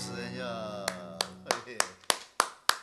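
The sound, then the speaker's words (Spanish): A lone person claps at a live performance, with about seven sharp, evenly spaced claps at a steady rhythm. A fading, falling voiced tone is heard just before the clapping begins. “Una sola aplaudidora, pero buena, ¿eh?”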